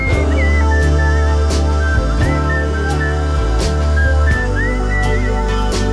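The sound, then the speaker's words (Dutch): A person whistles a clear, steady melody over a full music backing, the whistled line holding mostly level notes with a few short slides between them. “fluiten.”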